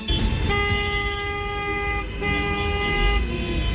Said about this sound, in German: Hubkonzert ist ja offizieller Nationalsound in Italien.